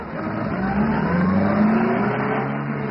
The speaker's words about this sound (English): Oh, maybe I better drive around the block again, huh?